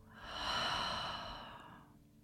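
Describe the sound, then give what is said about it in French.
A slow exhale during meditation: a soft, airy breath that swells gently and then fades over about two seconds, quiet and alone. “Inspirez. Et soufflez.”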